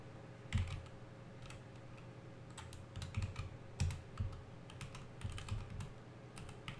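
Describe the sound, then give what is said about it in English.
Quick typing on a computer keyboard, soft clicking keystrokes arriving in uneven bursts, with a low steady hum underneath. “Let me type something in really, really quickly.”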